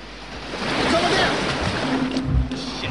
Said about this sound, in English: The sub comes bubbling up to the surface.